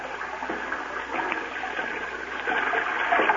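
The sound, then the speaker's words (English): Steady rushing, trickling water fills an underground cave lake of icy cold water. It runs as one continuous wash with no voices. “Come on, let's go down to the water.”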